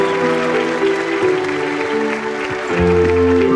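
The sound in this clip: Clapping fills an office ceremony as a colleague walks to the podium: a dense, steady patter of many hands that holds at an even level throughout.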